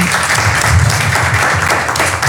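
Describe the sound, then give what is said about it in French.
An audience applauds at a public discussion: loud, dense, steady clapping that fills the whole stretch with no break in intensity. “Est-ce que nous pouvons encore applaudir pour cette demoiselle pour sa belle intervention?”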